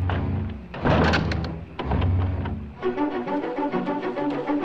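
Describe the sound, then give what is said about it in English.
A door swings open and is then shut, giving a couple of dull, heavy thumps. A steadier tonal sound follows after them. “The door swings open behind Nancy. She returns and shuts it.”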